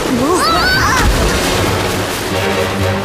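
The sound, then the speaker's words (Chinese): A small floating island breaks apart amid a loud, rushing wash of noise, with a deep boom near the start. A brief exclamation from a voice with sliding pitch comes at the outset. “哦，我的天哪，这座小浮岛开始四分五裂了。 哦，糟糕。 哦，这座浮岛遇到急流就会彻底散架。”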